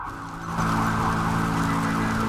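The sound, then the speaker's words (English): Sirens wail during a fire at a tenement flat, a loud, steady, continuous tone that swells slightly after the first half second and holds without a break, with no voices heard. “Buchan says something, but the sirens drown out his voice.”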